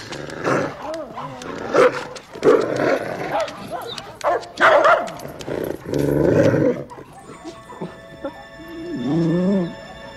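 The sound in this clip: A dog barks in several loud, rough bursts while people shout excitedly over and between the barks.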